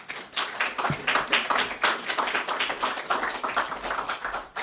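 An audience applauds to welcome a guest, with many claps in an uneven, pulsing rhythm at moderate volume.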